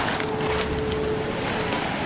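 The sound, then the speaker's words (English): Sea waves wash onto a pebbly beach, a continuous rushing surf noise that stays even and fairly loud throughout. “Young Iris kisses John and they run down the pebbly beach towards the sea.”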